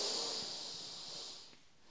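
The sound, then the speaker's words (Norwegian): A deep breath drawn in through the nose: one long, airy hissing inhale that slowly fades over nearly two seconds, with no voices. “Pust godt inn med nesa.”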